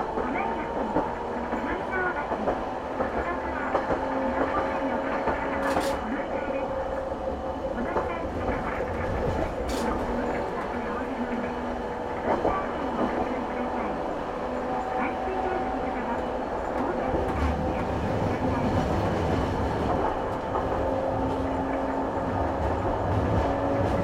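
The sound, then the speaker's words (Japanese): A passenger train runs along the line with a steady low rumble, rattling carriages and occasional clicks from the track. A voice speaks over the train noise throughout. “この列車は大津駅前行き、大津駅前行きです。”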